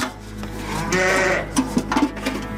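Grey sheep bleat on a livestock farm. A long, wavering bleat is followed by several shorter, louder calls over a constant low drone.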